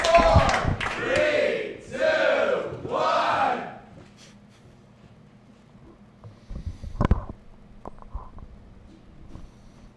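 A comedy-show audience cheers and whoops as a comedian is welcomed onto the stage, rising in three loud surging swells, then dropping to a low murmur broken by one short burst of shouting near the end.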